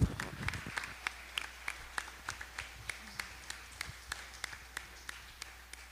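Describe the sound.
Faint applause from a church audience welcoming their pastor, heard as sparse, evenly spaced claps in a steady rhythmic beat, quiet throughout.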